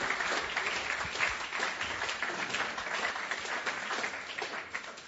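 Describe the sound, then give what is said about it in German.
A church audience applauding, a dense and steady wash of many hands clapping together. It keeps up evenly the whole time and tails off slightly at the end, with no voice standing out. “Lasst einfach einen Applaus geben dem Herrn für das, was er gewirkt hat.”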